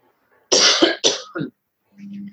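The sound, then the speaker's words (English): Three harsh coughs come in quick succession, the first longest and loudest and the last shortest. A brief low, muffled voiced sound follows, with no speech. “sorry, I've got a cough.”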